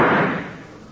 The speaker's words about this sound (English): I shoot you like a dog. May you grow dead.